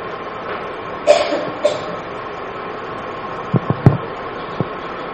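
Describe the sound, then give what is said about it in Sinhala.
A few short, fairly faint coughs from someone, each a brief burst over a steady low hum, followed by a few soft low thuds. “කෑ ගහනවා ඇහෙනවා, කවුද කහිනවා ඇහෙනවා.”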